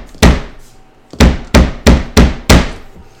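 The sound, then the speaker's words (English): Loud, heavy hammering on an inn's wooden main door: one hard blow, a short pause, then five more sharp thuds in quick, steady succession, each ringing briefly before the next. “There is a great hammering on the inn's main door.”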